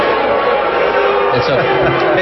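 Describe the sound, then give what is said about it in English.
Audience booing at a Republican political debate after a question about birth control: a loud, sustained roar of many voices, thick and continuous throughout, with no break or lull. “It's a very popular question in the audience, as we can see. The booing mainly seems to be a reflection of how imperious the right has gotten.”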